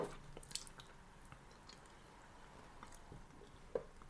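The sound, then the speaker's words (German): Someone chews a spoonful of food, giving faint, wet, squishy mouth sounds with a few soft clicks scattered through a quiet background; no talking. “Der frisst den ganzen Löffel auf. Es ist sau lecker.”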